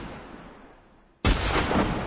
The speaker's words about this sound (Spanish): ¡Disparos! Esta situación se ha descontrolado. La policía dispara contra los piqueteros.